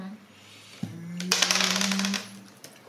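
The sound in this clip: Dice clatter across a table for a strength check in a tabletop game, a quick burst of sharp rattling clicks after a brief thump, with a low steady hum underneath.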